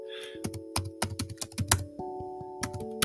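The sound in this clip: Keystrokes on a computer keyboard as a food type is typed into a website, irregular and fairly crisp, with steady tones humming underneath.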